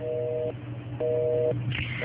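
Busy tone after a phone call disconnects: two evenly spaced electronic beeps, each about half a second long with equal silence between, over faint line noise.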